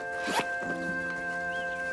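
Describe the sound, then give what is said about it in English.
A bag is unzipped with one quick, bright zip near the start. A steady, sustained tonal drone continues underneath throughout. “Putting down the bottle, she unzips her bag.”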